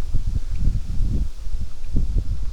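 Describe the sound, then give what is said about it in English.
Wind blowing hard across an open plain of tall grass, a loud, continuous low rumble with gusting buffets against the microphone and a soft rustle above it. “And the wind is blowing pretty good now. I'm out on the open plain.”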